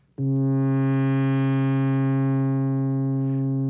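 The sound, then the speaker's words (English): A single loud synthesizer note whose low-pass filter an envelope generator opens and then closes, so the tone brightens quickly after the attack, peaks, and then slowly mellows while the note keeps sounding. “Now, that opening and closing of the filter was done not by me, but by the envelope generator.”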